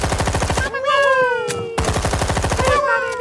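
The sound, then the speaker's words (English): Rapid Gatling machine-gun fire sound effect in two loud, dense bursts of fast repeating shots. A wavering, high tonal cry sounds in the pause between them and trails into the second burst. “You are being attacked by a pale lemur who is shooting babies from her fur like a Gatling machine gun.”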